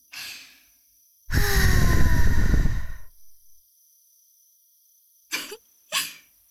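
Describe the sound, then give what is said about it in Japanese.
Breath is blown into an ear to clear out earwax: one long, loud, breathy rush of air, followed by softer short puffs and then two brief breathy bursts near the end. “耳垢、残ってるといけないから、吹いちゃった。もう一度念入りに。”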